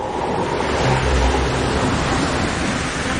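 Ocean waves around a fishing boat at sea make a steady, loud rushing wash with a windy hiss that runs without a break. No voices are heard.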